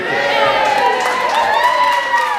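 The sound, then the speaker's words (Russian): Cheering and applause fill the lower house of the New South Wales parliament as a bill passes 59 votes to 31. Many voices shout and whoop together in a loud, continuous roar. “Зал заседаний взорвался аплодисментами, когда стало ясно, что законопроект преодолел свое первое препятствие после трех дней долгих страстных дебатов и принятия нескольких поправок.”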